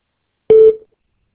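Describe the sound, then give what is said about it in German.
A voicemail beep tone: one short, steady, loud electronic beep at a single mid pitch, sounding alone with silence around it. “Bitte hinterlassen Sie eine Nachricht nach dem Ton.”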